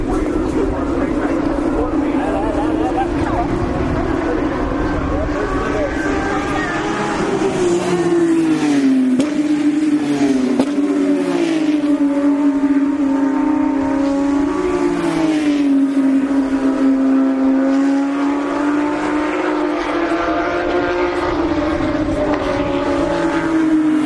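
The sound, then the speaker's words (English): Porsche GT race cars in a one-make race roar past on a track in a continuous loud engine drone. Its pitch dips and climbs again several times as the cars sweep by and shift. “These are all the same style of car. I mean, they're all the Porsche GTs. It's one class of race just for them. It's all about the drivers in this case. Here they come again.”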